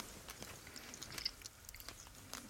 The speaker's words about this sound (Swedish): Det är ungefär 2 centimeter stor ostbit och en torkad jordgubb som är ungefär lika stor. Du kör, jag äter med fingrarna, förlåt.